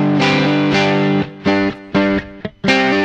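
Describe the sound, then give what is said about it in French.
Distorted instrument tone with added gain, delay and reverb plays a loud series of several sustained, harmonically rich notes, each separated by a brief dip before the next one swells in. “Ça c'est d'origine leur truc. Ils ont mis du gain et ils ont mis un délai et une reverb.”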